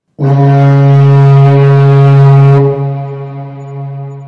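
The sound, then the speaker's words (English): A distant foghorn sounds one long, deep, steady blast with rich harmonics. It stays loud and alone for over two seconds, then drops to a softer, lingering tail. “but then there's a foghorn in the distance”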